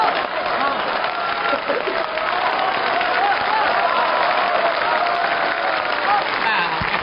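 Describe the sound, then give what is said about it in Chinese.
Audience applause, a dense and continuous wash of many hands clapping, steady and loud throughout. “知道大家为什么鼓掌吗？”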